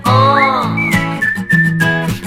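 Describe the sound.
Clear melodic whistling in an acoustic pop song, a high tune that slides up and then holds steady notes over soft guitar-backed music.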